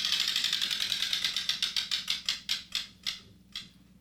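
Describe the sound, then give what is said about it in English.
A spinning prize wheel ratchets with many sharp clicks, rapid and even at first, then spacing out steadily as it slows until the last few clicks land far apart and it stops. “Let me spin this wheel here.”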